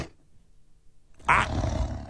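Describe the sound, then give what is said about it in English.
Two lions roar: a quiet, near-silent opening gives way to a sudden loud, deep, rumbling roar that holds to the end. “That's two different lions having some type of a conversation, which is fine.”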